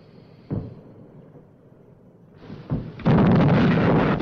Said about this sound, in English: The consort heads back past the Amethyst under a storm of artillery fire and takes several hits.